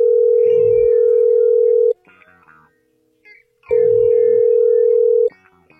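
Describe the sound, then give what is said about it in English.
Telephone dial tone heard while placing a call: a steady, loud, low electronic tone sounds in two long bursts with a quiet pause between them. “Matter of fact, call somebody right now”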